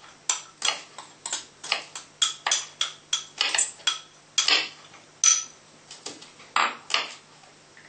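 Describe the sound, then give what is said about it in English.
Rhythmic clicking and scraping as tofu is mixed with a corn flour marinade in a bowl. Many sharp, bright utensil strikes come in a fairly steady beat, moderately loud, with no talk. “so for the marinade, we've got our corn flour. We'll mix, throw it all in there with the tofu.”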